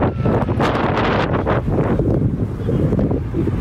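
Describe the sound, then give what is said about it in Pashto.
Strong, cold wind blows across the tents of a camp for earthquake survivors in Zindajan district, a loud, continuous roar with buffeting gusts and rustling that never lets up, with no voices heard. “دلته سخت بادونه او توپانونه چلیږي.”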